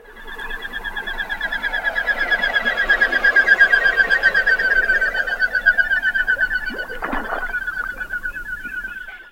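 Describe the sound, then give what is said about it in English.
Common goldeneye duck, a medium-sized cold-season visitor to Virginia, calling in a steady stream of rapid, pulsing whistled notes that stay even in pitch and loudness for the whole stretch, with a brief harsher burst near the end. “If you guessed the common golden eye, you're right.”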